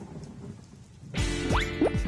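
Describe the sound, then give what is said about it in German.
A sudden loud crash of thunder breaks in partway through a thunderstorm, rumbling broadly over a steady rain-like hiss, with a few swooping tones layered on top. “Also, Blitz, 1, 2, 3, Donner.”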